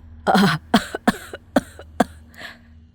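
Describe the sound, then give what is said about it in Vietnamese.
Violent coughing fit of an old woman: a long harsh first burst followed by several sharper hacking coughs that grow weaker toward the end, with no speech. “Một tràng ho dữ dội như rút ruột rút gan của người phụ nữ già nua vang lên.”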